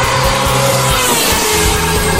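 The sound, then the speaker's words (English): A Formula One race car revving hard while doing donuts gives a loud, continuous, high-revving engine roar that stays dense and unbroken throughout. “Can I do donut? Donuts will not be required, thank you. Take that as a yes, then.”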